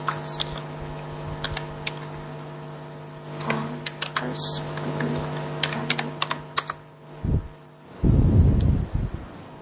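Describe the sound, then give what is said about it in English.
Rapid clicking of keys being typed on a computer keyboard, many irregular taps in quick bursts over a steady low hum. “Please, type it.”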